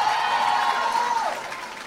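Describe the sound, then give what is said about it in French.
Audience applause for a saxophonist introduced at a band's first concert: a brief, steady wash of clapping that fades slightly as it ends. “Veuillez l'applaudir.”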